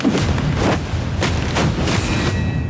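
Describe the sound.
Loud gunfire from a film scene: several heavy, booming shots in quick, uneven succession, with no speech.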